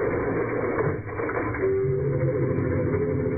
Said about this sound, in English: Jake's elevator headed downstairs at considerably less than the speed of light.